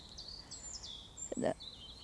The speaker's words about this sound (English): this beautiful place I am in now, and you hear the birds singing.